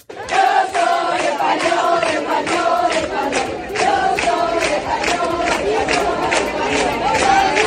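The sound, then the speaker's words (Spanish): A large crowd chants in the streets of Melilla during a visit by the Spanish monarchs. The loud, rhythmic chant repeats the same phrase over and over without pause. “Bueno, los cánticos han sido constantes, como este que estás escuchando.”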